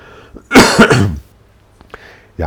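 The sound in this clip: A cough from a person whose voice is hoarse and raw: two loud, harsh bursts in quick succession, followed by quiet with a few faint breaths and small noises.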